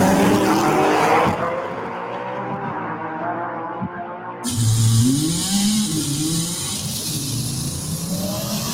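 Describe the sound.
Race cars racing, with loud, continuous engine roar that swells and dips as revs climb and fall, the pitch sweeping up and down through the passage, without any talk.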